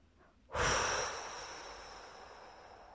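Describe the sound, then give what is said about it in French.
Strong breath blown out through the mouth during a guided relaxation exercise: a sudden, loud, airy rush that starts abruptly, then fades slowly over a couple of seconds, with no talking. “vous prenez une profonde inspiration par le nez en gonflant la poitrine et le ventre. Puis vous soufflez fortement par la bouche.”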